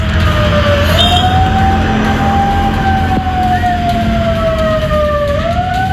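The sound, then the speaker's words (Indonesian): A wailing siren like an ambulance siren sounds on a street in Parepare, South Sulawesi, as drivers pull over. Its loud, steady tone climbs, then slowly sinks over a constant rumble of traffic. “pengendara di Jalan Jenderal Sudirman Parepare, Sulawesi Selatan ini dengan rapi menepikan kendaraan begitu mendengar ada suara mirip sirena ambulans”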